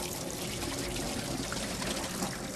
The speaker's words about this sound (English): we're going to need some bean sprouts. Okay, make sure you use cold water, and you want to wash it nice and clean, and then